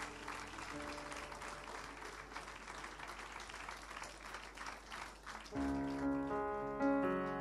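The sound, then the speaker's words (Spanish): Congregation applause of praise during a church celebration service: dense, steady clapping fills the first five seconds, then sustained keyboard-like musical tones enter and continue loudly to the end. “De ese aplauso de alabanza al Señor.”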